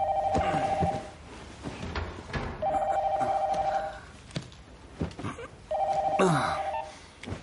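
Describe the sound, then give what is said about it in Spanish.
A telephone rings three times in the morning and wakes a sleeping man. Each warbling, bell-like ring lasts about a second, with pauses between rings and soft clattering and rustling in the background. “se despierta y contesta la llamada medio dormido.”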